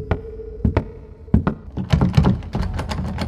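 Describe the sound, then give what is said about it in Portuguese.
A locked door is tried: a few sharp thumps and clunks come first, then a denser run of rattling knocks and taps as the door is worked without opening. “Eu vou em direção à porta e abro ela.”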